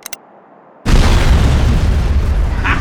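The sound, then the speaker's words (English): Stockpile of explosives in a garage blowing up when set off by a detonator: a couple of faint clicks, a brief silence, then a sudden loud boom that roars on as a heavy, sustained rumble. “I just blew up the stockpile in the garage she's in.”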